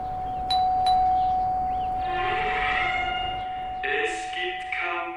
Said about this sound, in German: Und hier die Klingel hat sich im Prinzip seit den letzten 40 Jahren nicht geändert. Wir können ja vielleicht noch mal ein letztes Mal klingeln.